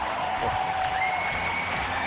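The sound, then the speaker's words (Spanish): Tennis crowd giving Roger Federer an ovation as he ends a 25-year career, a thick, continuous roar of clapping at an even level. “ovación para Roger Federer. Qué gran tipo.”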